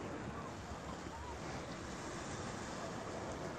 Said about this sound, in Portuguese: Correnteza bem forte ali. Eu não me peguei, eu estava entrando tão rápido. Olha a força dessa correnteza aqui.